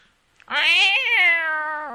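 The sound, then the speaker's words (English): A cat meows once, a loud, drawn-out, clearly voiced cry lasting over a second and sinking gently in pitch as it trails off. “That darn cat.”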